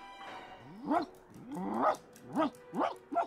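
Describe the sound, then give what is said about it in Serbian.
A dog barks at the sound of a lift, letting out several short, yelping barks that rise and fall in pitch at uneven intervals, moderately loud over a quiet background. “Ne laj svaki put kada se čuje lift, molim te.”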